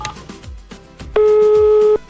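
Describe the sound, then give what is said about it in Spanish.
A telephone ringback tone sounds on the line while a call is placed: one steady, loud, mid-pitched tone lasting under a second, after a few faint low background sounds. “¿Llama? Sí, está llamando.”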